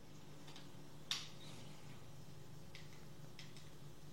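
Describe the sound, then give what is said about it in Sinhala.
Soft, faint ticking with a few light ticks and one slightly sharper click, spread irregularly over a steady low hum. “පොඩි ටික් ටික් කරලා සද්දයක් එනවා.”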